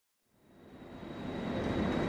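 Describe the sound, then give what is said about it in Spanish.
Train station ambience while waiting for an arriving train from Seville: a broad rumbling wash swells in from silence and keeps building, with a thin high whine held steady above it. “Estás esperando en la estación a un amigo que viene de Sevilla.”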